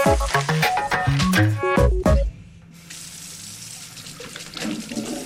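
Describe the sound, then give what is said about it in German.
Tap water runs into a sink during hand washing, a steady soft rushing flow that fills the second half after a short burst of other tonal sounds. “Die Morgentoilette erledigt. Haben Sie sich schon mal überlegt, wie viel Sie allein fürs Handwaschen und Spülen müssen zahlen?”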